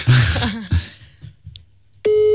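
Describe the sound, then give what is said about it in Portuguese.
Phone call ringing tone: after a few seconds of speech and near-silence, a single loud, steady electronic tone starts near the end and holds to the close. “Ele só tem mais 2 bips. Um toca.”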